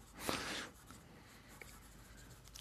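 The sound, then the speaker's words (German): Pen scratching on paper, a quiet brief burst of scribbling near the start followed by a few faint, scattered scratches. “Ich schreib's auf, Teil 5.”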